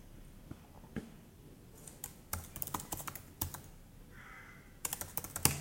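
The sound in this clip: Typing on a computer keyboard at home while starting a university VPN program: faint, quick bursts of key clicks in uneven clusters with short pauses between, heard alone without voices.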